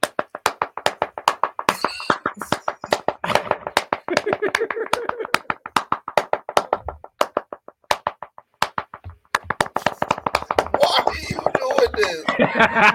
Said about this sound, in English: Oh man, endless claps.